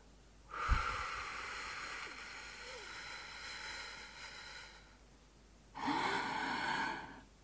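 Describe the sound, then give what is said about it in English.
A long, slow exhale through the mouth, as in a relaxation breathing exercise, a soft airy rush lasting about four seconds. After a short pause comes a deep, breathy inhale, slightly louder, that fades out at the end. “I just want you to try and breathe out all the breath that is in your body, breathe it out through your mouth, and have your hands on your tummy at the same time. So I'm going to do it now.”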